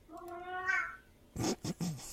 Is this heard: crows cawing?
no

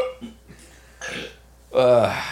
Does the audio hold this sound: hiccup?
yes

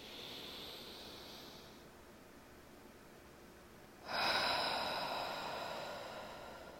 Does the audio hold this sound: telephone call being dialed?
no

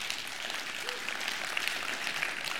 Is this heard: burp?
no

